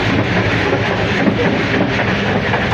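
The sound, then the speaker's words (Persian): Interior of a moving passenger train bound for Mashhad: a continuous, loud rumble with a steady low drone and a faint rattling texture that stays even throughout. “موزیکی که شنیدیم موزیک کوپه قطار مشهد بودیش. ما هم داریم میچرخیم توی قطار تا ببینیم”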